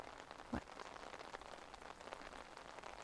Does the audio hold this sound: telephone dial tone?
no